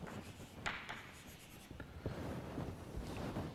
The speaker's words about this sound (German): also wir machen es vielleicht so, dass ich hier noch einen kleinen Index dazu schreibe